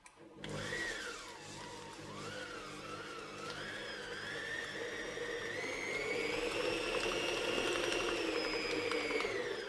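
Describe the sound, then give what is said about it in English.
An electric mixer beats cream cheese, sugar and salt for a burnt cheesecake, making a steady, fairly quiet whirring motor whine that climbs gradually in pitch and runs continuously throughout. “Okay, now that the cream cheese, sugar, and salt are in, I'm going to start beating it.”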